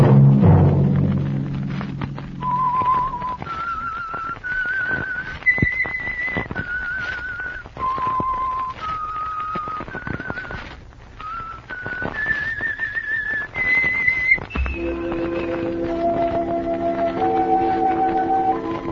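A whistled tune of many sustained notes steps up and down in pitch across a slow, lilting melody. It carries on steadily at moderate loudness, with a few low thumps near the start.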